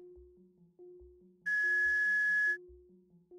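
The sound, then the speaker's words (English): In a video game, a whistle sounds as one long, steady, high-pitched blast lasting about a second, over a softer looping electronic tune. “There's a free whistle inside? I got a whistle?”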